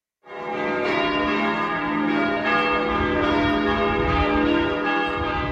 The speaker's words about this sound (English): you can hear the bells of Ljubljana in the background here in central Slovenia, an absolutely beautiful country